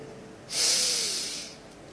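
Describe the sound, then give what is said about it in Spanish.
One deep, audible breath taken during a pause in a sermon: a soft, airy hiss that swells quickly, holds for about a second and fades, heard on its own without talk. “Acá quiero pausar. Respirando.”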